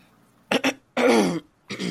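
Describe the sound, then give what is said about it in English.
Throat clearing from someone with a frog in the throat after laughing: a few harsh, rasping bursts, the first a quick double catch and the later ones longer and louder, alone with no talk. “I done laughed myself into a damn frog in my throat.”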